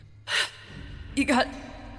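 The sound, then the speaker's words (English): A man gasps for air after being knocked down in a dramatized attack. Short, harsh, breathy gasps are heard: one early and another broken burst about a second later, with quiet breathing between them. “And there is Bill, gasping for air.”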